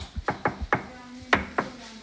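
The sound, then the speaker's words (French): Knuckles knock on a hospital room door in a children's ward, a quick cluster of light raps followed by two more spaced knocks. “Je toque bien.”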